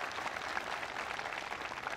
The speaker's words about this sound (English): Please give Derek a big round of applause.